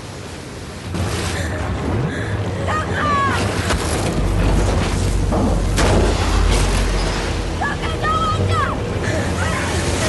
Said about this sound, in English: The wave of white water travels quickly back across the flood, kicking up debris and scattering it, knocking down anything that survived the first wave.